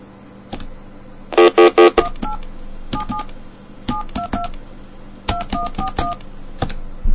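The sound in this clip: Touch-tone keypad beeps as a calling card number for SBC long distance is dialed on a telephone, many short dual-tone beeps in uneven groups, with a fast cluster of rapid tones near the start and sharp keypress clicks between.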